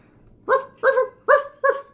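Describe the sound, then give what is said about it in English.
Several dogs bark in the distance: four clear, evenly spaced barks in a steady rhythm, alone without any talk. “off in the distance as several dogs appear to be coming your way.”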